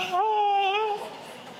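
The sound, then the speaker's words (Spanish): Crying with a scream: a loud, high, wailing vocal cry that holds a wavering note for under a second and then trails off into noisy breath. “llanto con grito como ese que acaba de sonar”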